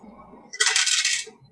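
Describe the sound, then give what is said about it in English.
Dice thrown onto the floor during a tabletop role-playing game make one short, bright rattling clatter that lasts under a second before dying away. “You gotta keep from throwing those on the floor, man. You need to find your dice roll mat.”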